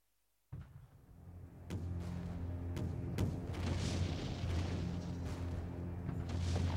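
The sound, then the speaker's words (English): Naval bombardment from a film trailer, with shells exploding: after brief silence, a sudden boom opens a continuous deep rumble, broken by several sharp blasts that keep the barrage loud throughout. “A bombardment from the largest fleet the Navy has ever assembled. 100 shells a minute till they surrender.”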